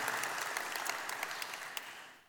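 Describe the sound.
Congregation applause during a church service: dense, steady clapping from many hands, fairly even throughout before fading away at the end.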